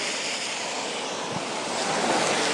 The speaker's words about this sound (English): You can hear the rain by the car wheels now, can't you?